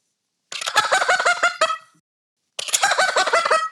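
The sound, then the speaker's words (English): Turkey gobble imitated with a handheld gobbler call whose bottom is cut out: two loud, rapid rattling gobbles, each about a second long, separated by a short silence. “that's what I do to imitate a gobble with this call. And the bottom is cut out of it.”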